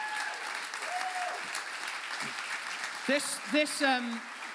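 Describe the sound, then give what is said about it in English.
An audience applauds in a steady, even patter while a voice talks over the clapping. “this round of applause is just the warm-up, because we're going to do a proper one”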